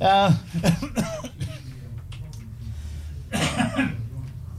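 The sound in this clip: A man clears his throat with a few rough, coughing bursts mixed in with brief talk.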